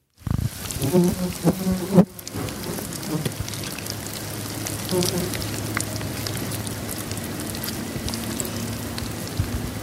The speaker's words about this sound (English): I have a worm farm in my garage. That's worms in his worm farm. What? I heard buzzing. How do worms buzz? Well, there was a fly around the worm.